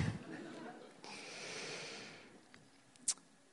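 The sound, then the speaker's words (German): A long, soft exhale, breathed out during a guided pause in a Bible study group: one airy hiss lasting over a second, then quiet with a brief sharp click near the end. “Okay, erstmal ausatmen.”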